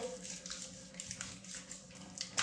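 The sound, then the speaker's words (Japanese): Soft water sloshing and skin rubbing as arms and armpits are washed with body soap in a bath, quiet and irregular swishes with a few small splashes. “腕と脇も洗って、”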